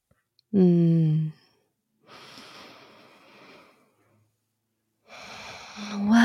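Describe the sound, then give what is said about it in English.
A deep, grounding breath: a short voiced sigh, then a long, soft, airy rush of breath, and another breathy exhale that builds toward the end. The breathing is fairly loud and clear, with no talk over it. “And taking a sensuous, grounding, deep breath with you.”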